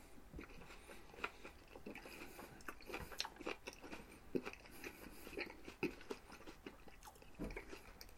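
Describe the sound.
Faint, crisp crunching as someone bites into and chews an apple, with many small irregular bites and chews running throughout.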